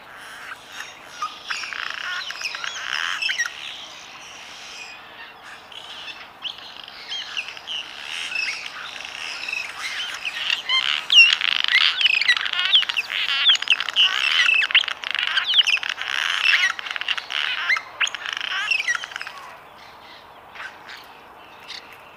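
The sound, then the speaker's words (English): Cliff swallows singing in a long, dense stream of guttural grating notes mixed with thin squeaks. The chatter is rough and creaky and keeps going without a break for about twenty seconds before it thins out. “They sing, if you can call that singing, a series of guttural, rating sounds and squeaks. I think it sounds like rusty gates that poor old cliff the farmer has to open and close all day.”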